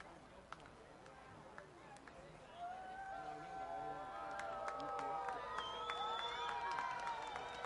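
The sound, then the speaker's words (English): A baseball crowd at a ballpark stirs during a long at-bat. Faint background murmur swells partway through into a steady roar of cheering that holds to the end. “Crowd comes to life here at the ballpark.”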